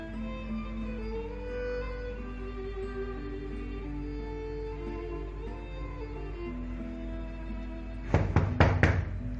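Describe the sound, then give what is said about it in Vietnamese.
Knocking on an office door, a quick cluster of a few sharp raps near the end, heard over steady background music with no voices. “Hồng Ân gõ nhà cửa văn phòng của Đình Tuấn, không để anh mời vào”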